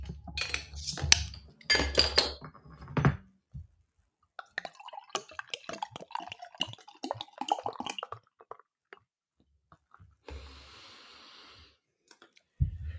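A 50-centilitre bottle of 6.5% dark beer is opened with a few sharp clinks and clatters, followed by quieter scattered ticks and drips, with a short fizzing hiss near the end.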